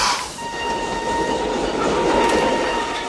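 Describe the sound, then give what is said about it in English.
A train pulls into a depot in Czechoslovakia, its loud, steady rolling rumble carrying a thin sustained metallic whine above it throughout. “Later at a depot, a commandant and his troops await the arriving train.”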